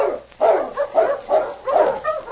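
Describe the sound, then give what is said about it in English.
A sled dog team barks in a quick, uneven series of mid-pitched woofs and yips, fairly loud and overlapping, with short gaps between bursts and no talking. “He turned his attention to the dog team again.”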